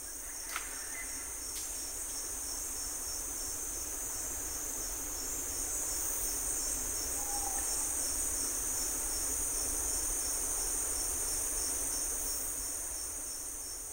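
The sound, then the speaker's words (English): Dense insect chorus from a slowed-down recording of a forest in Panama: a steady, shrill buzzing drone over a faint continuous hiss, with a couple of brief clicks near the start. No voices. “This is a forest in Panama.”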